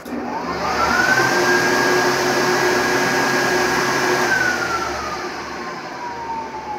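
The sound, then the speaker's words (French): A heated electric hand dryer roars in a Ritz hotel washroom with a steady rush of air, its whining motor tone rising as it starts, holding level, then sinking as it winds down. “Voilà. C'est un essuie-main électrique. Voilà, à chaleur.”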